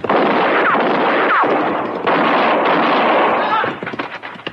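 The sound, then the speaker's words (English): Gunshots fired at close range by a rider on a town street: loud, harsh blasts over a dense, noisy rumble that ends in scattered crackles, with voices present. “No, he missed me. But he was shooting mighty close.”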